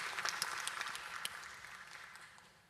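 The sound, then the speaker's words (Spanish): An audience applauds the pastor's mother, a faint, dense patter of many hands clapping that slowly fades away toward the end. “siempre un aplauso para mamá es bienvenido”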